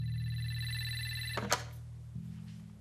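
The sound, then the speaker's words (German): A telephone rings with a steady electronic tone for over a second, then a sharp click cuts it off and a low hum carries on to the end. “Mein Telefon war offenbar doch nicht defekt.”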